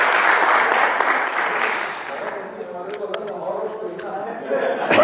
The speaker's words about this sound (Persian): یه دست دیگه به افتخارش بزنم بابا.